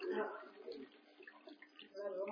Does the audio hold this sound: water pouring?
yes